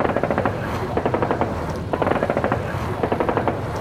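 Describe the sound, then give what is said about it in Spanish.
Aircraft machine guns, overheated from an attack on a ship, fire on their own in several bursts of rapid, clattering shots over a steady low engine drone. “Tengo que enfriar las ametralladoras. Se están disparando solas solo por lo calientes que quedaron del ataque.”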